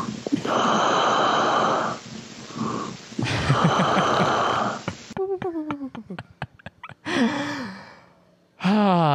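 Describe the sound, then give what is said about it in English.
A voice imitates snoring and Darth Vader–style wheezing: loud rasping inhales and exhales, several breathy gasps with pauses between them, and a stretch of sputtering, clicky voiced sounds. “What you're hearing right now is the narcoleptic son of Darth Vader in his native environment.”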